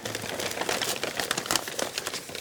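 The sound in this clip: Brown paper crinkles as it is unwrapped from around a skull, a steady, crisp rustling and crackling that runs continuously throughout, with no voices.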